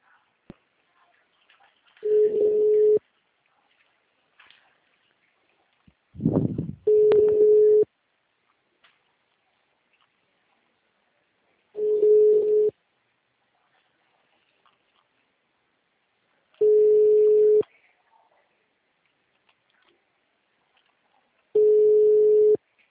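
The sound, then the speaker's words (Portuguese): Telephone ringback tone on an outgoing call: five short, identical mid-pitched beeps of about one second each, repeating evenly roughly every five seconds with quiet gaps between them. “llamada en camino.”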